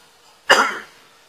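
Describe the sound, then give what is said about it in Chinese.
A single cough after choking, one short, loud burst heard alone, with quiet before and after it. “不好意思，呛着了啊”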